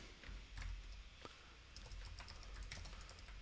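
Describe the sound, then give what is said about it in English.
Rapid typing on a computer keyboard: many quick, clicking keystrokes in uneven bursts over steady background noise, with no talk. “let me fix this, copyright free. I get a little trigger happy on the keyboard here.”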